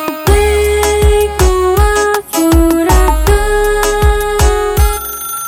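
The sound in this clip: An incoming-call phone ringtone plays bright, melodic electronic tones in a steady, repeating pattern. Many short notes loop loudly with no talk over them.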